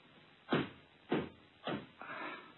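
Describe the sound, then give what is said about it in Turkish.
Knocking on a door: four heavy, evenly spaced thuds, each with a short decay, the last one trailing into a longer, softer rumble. “Kapı çalınıyor hatun.”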